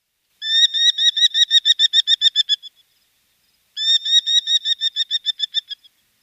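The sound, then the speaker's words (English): A merlin falcon gives its call, two bursts of rapid, shrill, evenly repeated notes, each run lasting a couple of seconds and separated by a short silence. “that is the call of a Merlin.”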